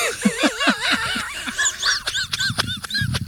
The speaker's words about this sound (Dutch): kleine, kleine trappen, mensen. Hier, zit dus niet alleen een grote trap, hier zit ook een kleine trap.